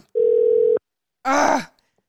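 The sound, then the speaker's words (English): A telephone dial tone sounds while a call is being placed: one steady, even hum that holds for about half a second and then cuts off. A short, harsher burst of sound follows after a brief gap. “I'm just calling Barbara.”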